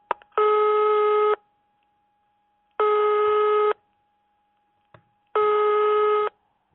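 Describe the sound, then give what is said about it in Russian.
Telephone signal of an incoming long-distance call: three long, steady buzzing tones of about a second each, separated by pauses of roughly a second and a half, loud and alone with no talk. “Поступает иногородний звонок.”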